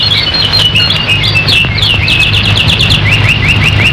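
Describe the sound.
Birds chirp in many quick, high, repeated tweets, a busy overlapping pattern that runs the whole clip over a steady low hum.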